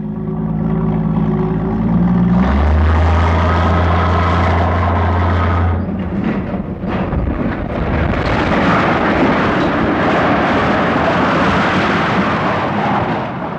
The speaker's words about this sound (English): As the corners gave way, the upper part came crashing to the ground. Here is the sound of the steeple coming down, as recorded by our KJRG microphone.